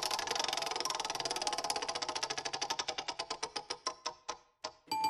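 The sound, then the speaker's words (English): A random track-picker wheel spins with rapid, loud ticking that steadily slows into widely spaced clicks before coming to a stop. “Let's spin the wheel.”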